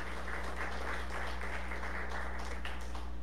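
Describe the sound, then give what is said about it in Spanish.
Applause for the Lord from the crowd at a religious gathering. The clapping is a dense, steady clatter of many hands, fairly faint, over a low constant hum. “Le damos un aplauso al Señor por eso.”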